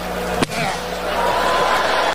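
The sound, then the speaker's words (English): A document is slammed down on a podium, one sharp, loud smack early on that cuts through a steady background. “You ever seen a document? And he slams it down on the podium.”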